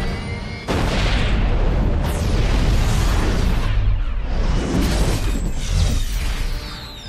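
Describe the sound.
A huge missile explosion at a weapons demonstration, with the warhead splitting into many smaller missiles that strike like carpet bombing; a sudden heavy boom follows a brief quieter opening and becomes a sustained rumbling roar that eases slightly at the end.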